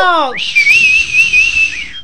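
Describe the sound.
Loud, shrill human whistle: a single sustained high note of about a second and a half with a slight wavering pitch, preceded by a brief falling vocal sound.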